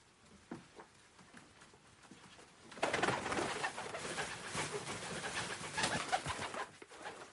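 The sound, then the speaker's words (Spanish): A pigeon flutters its wings indoors in a kitchen, dodging a thrown blanket and escaping toward a hallway. A few soft taps come first, then a sudden loud burst of sustained wing flapping carries on until near the end. “La paloma la esquiva revoloteando y huye hacia el pasillo.”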